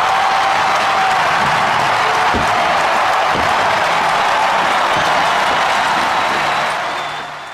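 A stadium crowd in San Francisco roars and applauds as Barry Bonds hits his record 756th home run. The dense, loud cheering stays constant for several seconds, then eases off slightly at the very end.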